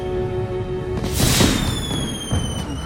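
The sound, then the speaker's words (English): Fireworks exploding in the night sky above a theatre whose roof has opened: one broad crackling burst, then a smaller pop shortly after, over a steady background. “A large circular section of the ceiling slides away, opening up the roof of the theatre to the night sky, where fireworks explode in a glittering display.”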